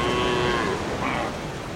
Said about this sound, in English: A herd of cows came walking down the beach, some old women and children with them.